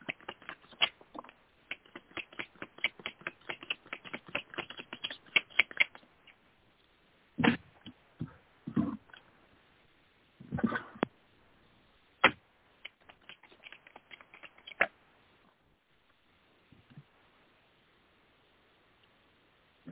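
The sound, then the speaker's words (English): Oracle cards are shuffled and drawn from a deck for a love and romance reading: first a fast run of many crisp flicks, then sparser scattered snaps and rustles that fade to near silence. “Okay, so I pull some love romance oracle cards for you.”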